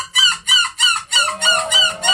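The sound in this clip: A person imitates a seagull call with about seven loud, bright squawking cries in a steady rhythm. Each cry is a short, harmonic burst with a gap before the next. No other voices are heard.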